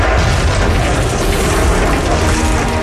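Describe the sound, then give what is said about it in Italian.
Televisions explode around the world in a loud, unbroken blast, a roaring, rumbling burst that runs steadily for about three seconds without a pause. “il sistema parte e nel mondo ogni televisore esplode per sempre”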